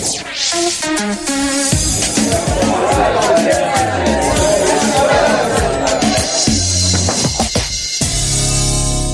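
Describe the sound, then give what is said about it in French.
A radio show jingle plays loudly, opening with bright tonal notes, then swelling into a dense, crowd-like wash of voices before closing on sustained tones. “Franck, jingle, c'est parti.”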